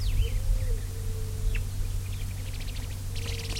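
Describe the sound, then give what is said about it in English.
Birds call back and forth over a steady low hum: scattered thin chirps early on, then quick runs of repeated high notes that grow busier toward the end. “Birds interacting.”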